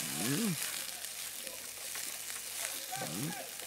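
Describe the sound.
Mushrooms frying in a pan give off a steady, bright sizzle throughout, with brief bits of talk near the start and again near the end.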